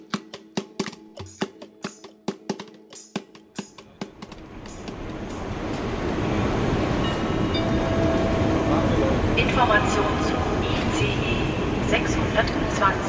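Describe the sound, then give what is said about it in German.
Train noise on a platform at Cologne main station: rhythmic wheel clatter at first, then swelling into a loud, steady rumbling roar that fills the rest. “Ich stehe auf dem Bahnsteig des Kölner Hauptbahnhofs”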